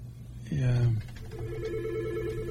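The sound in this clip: A telephone rings with an incoming call. A brief spoken word comes first, then a steady electronic ringing tone that holds evenly for more than a second at a fairly low level.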